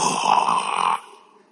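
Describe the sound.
A voice imitates a snore: one loud, raspy, drawn-out snore lasting about a second, then trailing off into quiet.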